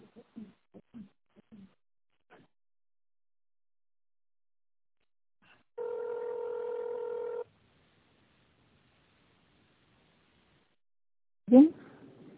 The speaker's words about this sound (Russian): Пожалуйста, наберите добавочный номер абонента или дождитесь ответа секретаря.